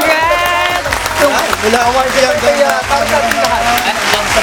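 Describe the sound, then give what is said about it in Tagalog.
An audience at an event celebrating a public affairs program's award breaks into applause: a loud, steady patter of many hands with voices shouting and talking over it throughout. “Palakpakan.”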